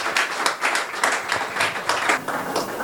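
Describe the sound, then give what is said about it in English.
Applause from a church audience giving a standing ovation, dense, steady clapping from many hands with no letup throughout. “So please, with a standing ovation, let us rise and appreciate what stands before us today.”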